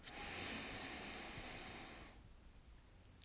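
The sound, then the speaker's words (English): A long, deep inhale taken during a guided prayer: a steady, breathy rush of air that holds for about two seconds and then fades away, with no talking. “Let's just take another moment to inhale”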